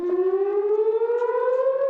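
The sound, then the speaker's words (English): An air raid siren blares in Israel during a missile barrage, a loud, steady wail that climbs gradually in pitch throughout. “Meantime, in Israel, sirens blared after Iran-backed Hezbollah fired a barrage of missiles”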